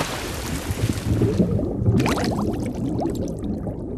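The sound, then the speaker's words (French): Sea water sloshing and splashing during a boat outing off Balagne, Corsica, a continuous bed of gurgles and small slaps with no voices. “Ça, c'est ce que vous entendrez ce week-end en Corse à l'occasion d'une balade en mer à la découverte des fonds sous-marins de Balagne.”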